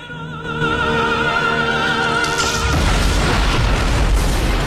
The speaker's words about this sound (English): The tremendous explosion throws flames and debris into the air, and a raging fire consumes the wreckage.